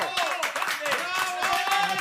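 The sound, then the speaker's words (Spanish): Audience applause for guests from a Galician film festival: a steady burst of clapping with cheering voices calling out over it, loud and continuous throughout. “Galicia Friki Film Festival, para os que imos pedir un fortísimo aplauso”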